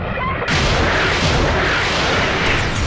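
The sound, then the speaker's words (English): Heavy weapon fire: a loud, abrupt blast that swells into a sustained, roaring wash of noise lasting several seconds. “So it's firing again. Evasive!”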